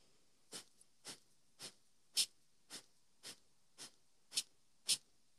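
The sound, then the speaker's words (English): Forceful nasal exhales from a breathing exercise come as about ten short, hissing bursts, evenly and rapidly spaced. The quiet inhales between them are barely audible. “So I'm focusing on that exhale, and I just let the inhale happen naturally. So it's forceful, and it is stimulating.”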